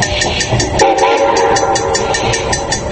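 A train travels steadily, heard from inside an express train's sleeping-car compartment: a continuous loud rumble with rhythmic clatter, and a sustained horn-like tone in the middle.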